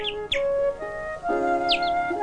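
A grey sparrow chirps from its nest on a bathhouse window frame, giving a few short, high chirps over a sustained tonal background.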